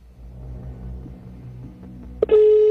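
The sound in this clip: A telephone call rings out after a number is dialed. A low rumble gives way to a short blip and then a loud, steady electronic tone that holds to the end.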